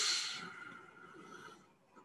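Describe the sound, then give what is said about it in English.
A slow, deep inhale through the nose during a breathing exercise: a soft, airy hiss that is strongest at the start, then thins and fades over about a second and a half. “Okay, so now inhale very, very deeply, and then retain the breath below the navel. So inhale very deep.”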